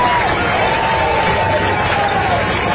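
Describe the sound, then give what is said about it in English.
A high school football crowd on its feet roars during a critical third-down play in a Manual versus Shelby County game, producing a steady, dense, loud cheer with no breaks. “Big Red need a big stop here. Crowd on the feet.”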